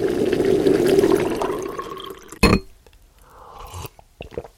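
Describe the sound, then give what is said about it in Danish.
Coffee being poured: a gurgling liquid stream for about two seconds, then a sharp knock and a few quieter clinks and taps. “kaffen, der bliver hældt op.”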